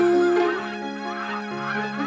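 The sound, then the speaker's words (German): Geese honk as they fly away, giving a few loud, nasal calls, the strongest at the start and softer ones following. “und seh euch Gänsen beim Wegfliegen zu. Ihr wart den Sommer hier, jetzt seid ihr weg im Nu.”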